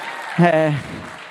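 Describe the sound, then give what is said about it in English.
Applause from a church audience for the worship band, a steady patter with a single voice calling out loudly for a moment in the middle. “let's give a little round of applause for the band, right?”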